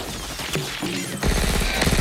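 Gunfire peppers a bar with bullets, several sharp cracking bursts and impacts landing in quick succession over a dense, noisy clatter.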